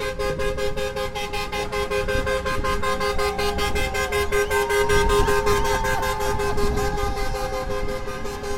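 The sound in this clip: A truck horn honks in support at an outdoor assembly near Ruta 38 in Cosquín. It sounds as a long, steady, blaring tone that lasts the whole clip over continuous road noise.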